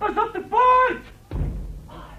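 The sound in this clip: A door slamming shut gives a single dull, low thud partway through, set among voices talking just before it.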